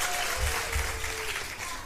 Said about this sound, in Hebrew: אז מחיאות כפיים לכל מי שהגיע.